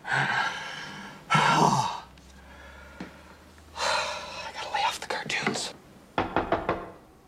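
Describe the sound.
Sharp knocking at a door, struck as a man answers it, comes in a few quick, crisp bursts separated by quieter rustling and breathy sounds.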